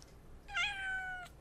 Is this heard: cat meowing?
yes